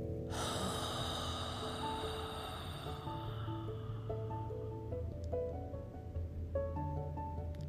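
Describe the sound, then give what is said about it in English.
A long, deep breath during a guided breathing exercise, a soft airy rush that swells early and slowly fades, over gentle sustained music tones with scattered higher notes. “Inhale in, nice and long. Exhale.”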